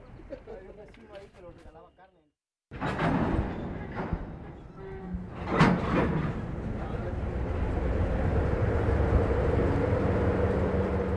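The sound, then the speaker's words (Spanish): A train starting up in the distance near waiting migrants: after a few seconds of chirping birds and a brief silence, a low rumble with clanks and thumps sets in and builds steadily to a sustained roar. “En la distancia, un tren arranca.”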